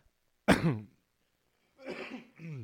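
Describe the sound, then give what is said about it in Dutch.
A throat clearing: one sharp, loud burst, then after a pause a longer, rougher clearing in two parts, with no talk around it. “Verskoon my, ek het nou hier ding in my keel.”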